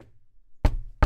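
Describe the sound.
Two sharp, loud knocks land about 0.4 seconds apart after a faint low rumble, each a hard, abrupt hit that dies away quickly. No one speaks.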